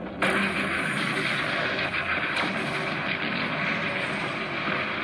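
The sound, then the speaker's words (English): Artillery barrage opening fire in battle, a dense, continuous roar of heavy guns with a few sharper blasts standing out from the sustained rumble throughout. “our artillery exploded to life. Within moments of this opening Allied barrage, the alien army responds.”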